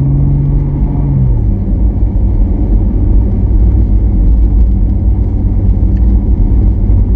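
Steady, loud low engine rumble and road noise inside a car as the driver floors the accelerator and shifts into third gear; a tonal engine note changes about a second in, then the strong drone holds with no voices.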